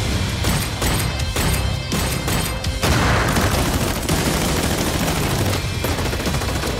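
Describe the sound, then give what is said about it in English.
Loud, continuous gunfire from a shooter video game trailer: many dense bursts of rapid automatic shots and heavy booms overlap throughout, with barely a pause in the barrage. “A shooter. It's probably Escape from Tarkov or something. Gun porn.”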